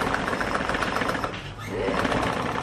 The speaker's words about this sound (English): In the main production room of Horseman Shoes, six workers are busy sewing shoes